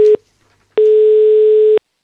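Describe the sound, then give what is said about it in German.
Telephone ringback tone while a call is placed: a steady mid-pitched electronic tone. The tail of one burst ends at the start, then after a short silence a single one-second beep sounds alone. “Müssen wir gleich mal anrufen beim Simon.”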